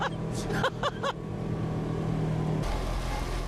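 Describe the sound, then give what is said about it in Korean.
A specially built, snowplow-like shuttle bus drives toward a gondola station. Its engine gives a steady, low drone, a few short exclaiming voices sound early on, and a broader rush of noise rises near the end. “곤돌라를 타는 승강장까지 이 특수 제작한 셔틀버스를 타고 가지요. 간다! 어머나 세상에 또 이런 것도 처음 타보네. 이거 제설차 아니야?”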